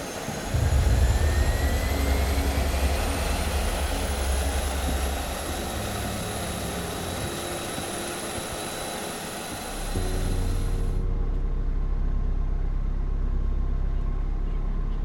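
A passenger jet taking off, heard from inside the cabin: a loud, deep engine roar with thin high whines climbing in pitch. The roar eases midway, then swells again near the end.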